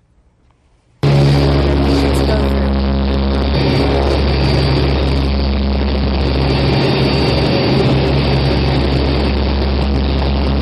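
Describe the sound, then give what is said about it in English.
Loud engine roar of a C-130 military transport aircraft taking off on a night mission. It bursts in after about a second of near silence, then holds as a steady, dense drone with a deep hum and a constant tonal whine. “This is going to be a takeoff.”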